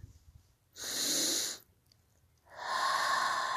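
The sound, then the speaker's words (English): Two long, soft breaths, a deep inhale and a slow exhale, during a relaxation meditation by the ocean. They rise as broad airy rushes separated by a short quiet gap, with no talking. “Take a deep breath and let go.”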